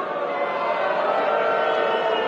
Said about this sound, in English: What do you have against the Marquis Network? Believe me, you won't be booing about that in a year.